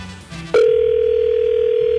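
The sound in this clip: A telephone line tone sounds while a call is put through to a caller. After a few brief, quieter sounds, a steady single-pitched tone starts about half a second in and holds unbroken to the end.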